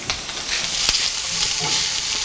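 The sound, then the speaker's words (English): Onion sizzles steadily in a frying pan, a loud, even crackling hiss with one brief tap partway through. “All right, so just onion here. I don't want it too brown. I could absolutely turn it down a bit.”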